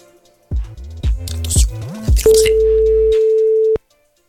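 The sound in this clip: Phone tones on an outgoing call: four short falling blips in a steady rhythm, then one long, steady, mid-pitched ringing tone that cuts off abruptly, followed by silence.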